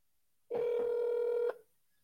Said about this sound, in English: Is it dialing? It just stopped. Just stopped halfway through.